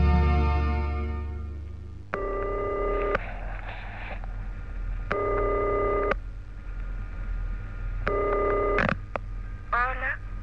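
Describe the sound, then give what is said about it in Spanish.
A telephone rings on a call-in line, three evenly spaced rings with short pauses between them, then a brief warbling trill. A low steady hum runs underneath throughout. “Suena el teléfono y voy como loco a su encuentro.”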